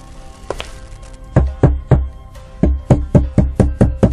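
Knocking on a door: a couple of faint taps, then sharp, hollow knocks in bursts, a group of three followed by a quicker run of several raps, loud and alone.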